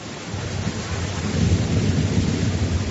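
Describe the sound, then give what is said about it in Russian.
Rain pours during a thunderstorm onto a straw-roofed hay barn, a dense steady hiss over a continuous low rumble of thunder that swells a little after the first second; no voices. “Каков дождь, каковы молнии! Кое-где сквозь соломенную крышу закапала вода на душистые сено.”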